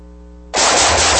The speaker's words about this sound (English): Woo, nice shooting.